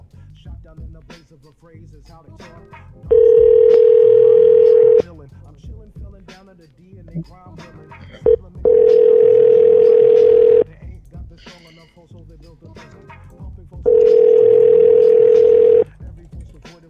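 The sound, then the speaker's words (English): A telephone rings out while calling a cell phone: three long, steady, loud tones of about two seconds each, separated by longer gaps where faint voices and small noises are heard. “Alright, let's try Andrew's other number. This looks like a cell phone, maybe.”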